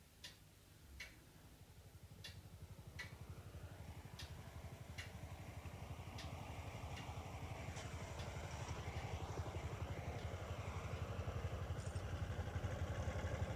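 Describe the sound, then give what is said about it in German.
Trucks and construction vehicles drive bumper to bumper to a nuclear facility building site in the Taxöldern Forest near Wackersdorf. A low engine rumble builds steadily louder, and a few sharp ticks sound early on. “Stoßstange an Stoßstange fahren die Lastwagen und Baufahrzeuge zum Gelände.”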